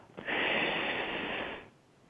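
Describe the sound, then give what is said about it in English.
A single long, airy breath during a breathing exercise of inhaling through the nose and exhaling through the mouth, a soft steady hiss lasting over a second before fading, faint and alone. “Inhale through the nose. Exhale through the mouth.”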